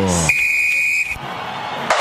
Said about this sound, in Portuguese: Quando nesse momento apita o árbitro.